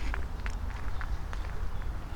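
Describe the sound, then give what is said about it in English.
Footsteps walk along a forest trail, soft regular treads sounding faint and steady over a quiet background. “But I do not let this hinder me. I just keep on walking. And as I walk over the footbridge,”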